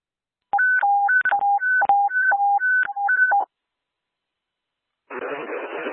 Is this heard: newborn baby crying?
no